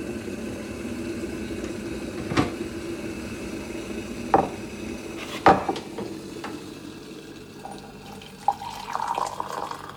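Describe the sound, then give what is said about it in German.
Tap water runs steadily while malt coffee is made, and a few sharp clinks of dishes ring out over the flow at irregular moments. “Aber zuallererst koche ich mir einen Malzkaffee.”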